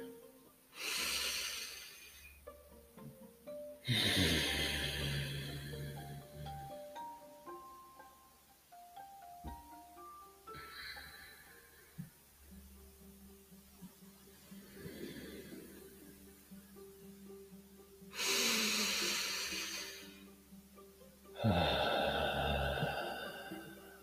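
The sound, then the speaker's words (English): Slow, deep breaths taken during a calming relaxation exercise: a few long, airy inhales and exhales, spaced well apart, over soft sustained tones. “So with that, let's take some deep breaths and slow down.”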